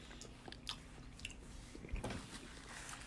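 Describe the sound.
Someone biting and chewing a moist, staining, candy-like food, with faint, wet, squishy crunches and mouth sounds repeating unevenly throughout, without talk.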